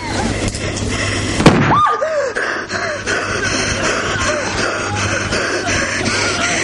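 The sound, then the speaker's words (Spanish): A single sharp pistol shot, fired with the gun pressed against a man's neck in a 1995 thriller drama scene. It is one loud, abrupt crack that rises above a steady background sound and dies away quickly. “Oswaldo pone la pistola en el cuello de Eduardo y aprieta el gatillo.”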